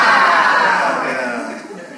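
A crowd shouts "wow" together in one loud, drawn-out exclamation that fades steadily over about two seconds.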